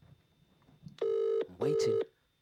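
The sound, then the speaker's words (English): Ringback tone of an outgoing phone call: one double ring made of two short, steady electronic tones with a brief gap between them, after a moment of faint background. “Let's call him and see.”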